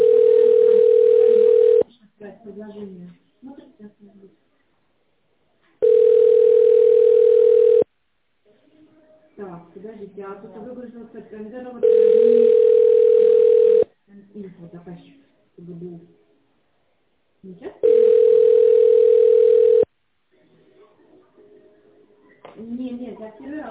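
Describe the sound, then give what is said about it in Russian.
Four steady, mid-pitched telephone ringing tones, each about two seconds long, sound at even intervals while a call to a company line is transferred to the secretary. A recorded voice speaks in the gaps between tones. “Ваш звонок переводится на секретаря.”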